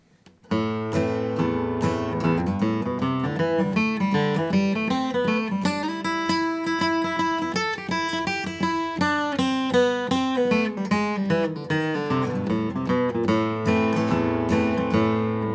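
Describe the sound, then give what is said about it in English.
A guitar plays a fast, dense stream of notes as a lick over A minor, the kind used to end a solo. After a brief quiet start, the notes run unbroken and loud to the end. “It's just a quick stream of notes so you can kind of hear how it fits as the ending to a solo.”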